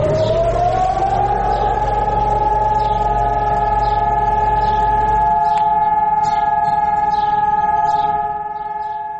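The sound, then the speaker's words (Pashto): A memorial alarm siren in Jerusalem sounds one long, steady wail, loud and unbroken. A low rumble underneath drops away partway through, and the siren eases slightly near the end. “پرون په بیت المقدس کې په دې مناسبت د ځانګړي الارم لغږولو سره په یو وخت کې موټرونه پر سړکونو ودرېدل”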